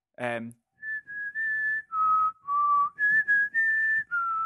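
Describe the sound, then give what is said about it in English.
A man at work whistles a familiar tune in clear, pure notes. The held tones step up and down between a few pitches in a steady melodic phrase, after a brief voiced sound at the start. “after about 10 minutes, he started whistling. And he whistled,”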